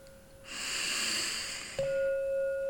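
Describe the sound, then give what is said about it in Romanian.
A deep breath drawn in during a guided breathing exercise: a steady, airy hiss lasting about a second over a soft sustained tone, which swells louder once the inhale ends. “Pregătim inspirul, inspir adânc.”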